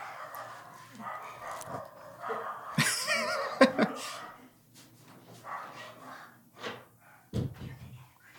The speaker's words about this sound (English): oh, we'll edit, but this is also a dog-friendly podcast. Okay, dog-friendly podcast, those are the dogs.